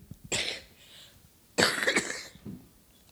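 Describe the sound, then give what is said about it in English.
Coughing during a sermon: two strong, dry coughing bursts followed by a fainter third, alone without speech. “if I have to cough through the whole thing”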